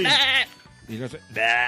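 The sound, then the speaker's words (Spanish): A goat bleats three times, loud wavering calls with a shaky vibrato, the first and last longer and the middle one shorter and lower, separated by brief gaps. “llega nuestro mexicano, el chivo. El chivo, la chiva, ¿no?”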